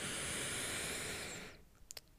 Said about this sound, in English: back to center, deep breath in,